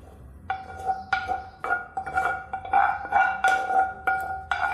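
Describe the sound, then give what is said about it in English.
Spoon scraping and clinking against a bowl as an onion and raisin mix is stirred into cooled couscous. Many short metallic scrapes come in a quick, uneven rhythm, with no voices. “Let's check on the couscous. It seems to have cooled down now. I'm going to bring the onion and raisin mix and stir that in.”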